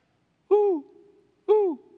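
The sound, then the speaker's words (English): An owl in the trees gives two hoots about a second apart, each a round, low call that dips slightly in pitch at its tail, heard alone against a quiet background. “You see my little owl up in the right-hand corner. Woo! It's up in the trees.”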